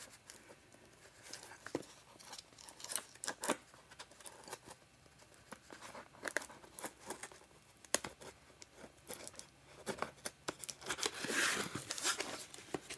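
Tape is torn off the ends and corners of a package holding a device. Faint, irregular crinkling and ripping bursts come in uneven clusters, with a louder stretch of tearing near the end.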